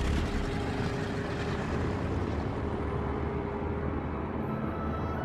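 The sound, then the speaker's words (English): An airplane gathering speed and lifting off into a twilight sky, its engine a loud, steady, unbroken drone throughout. “The plane gathers speed and lifts off into the twilight sky.”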